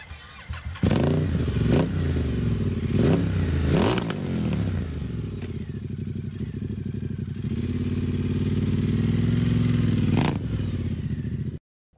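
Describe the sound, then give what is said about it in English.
A high-performance V-twin motorcycle engine revs with several sharp throttle blips, then holds a steady, loud, rumbling roar with occasional pops and crackles before cutting off abruptly. “It's a twin. Yeah. The V-twin? Yes. The V-twin. It sounds like a high-performance V-twin. In a way, it's like quite brat with the pops and crackles.”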